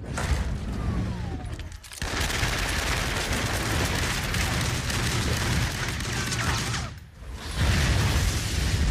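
Gunfire sound effect in a comedy skit, a dense rattling barrage like machine-gun fire in three long stretches split by two brief gaps, loud and continuous with no talk.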